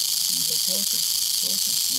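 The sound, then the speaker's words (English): A diamondback rattlesnake rattles a few inches from the microphone, a continuous dry, high hiss that holds steady throughout while a man talks over it. “I nudge the microphone to within a few inches of the vibrating diamondback.”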